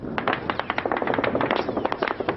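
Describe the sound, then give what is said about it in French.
Gunfire crackles during desert combat in Libya in 2011, many sharp, rapid cracks in a dense, uneven burst that keeps up without a break, fairly loud throughout. “Le feu est nourri. Pour ces hommes, une première expérience de combat intense.”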